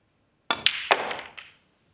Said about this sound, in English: And then it goes. Well, that was a quality shot, wasn't it? With pace. Right into the middle of the pocket.